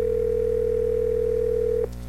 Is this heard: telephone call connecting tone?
yes